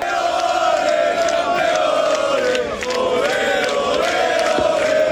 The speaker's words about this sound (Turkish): Ligde üst üste ikinci şampiyonluğu yaşayan Barcelona taraftarları sokaklara döküldü.